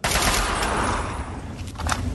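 Rapid automatic gunfire from a Chinese assault rifle in a video game, a loud, dense volley of shots that runs for about two seconds.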